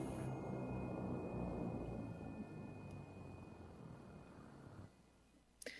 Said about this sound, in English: Airplane!